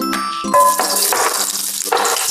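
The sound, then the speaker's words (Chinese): Ginger slices fry in hot cooking oil in a wok over low heat. After a brief pause, a bright crackling sizzle bursts in and continues unevenly to the end. “开火热锅，倒入适量的食用油，转小火，放入姜片，”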